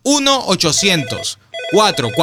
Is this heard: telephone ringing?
yes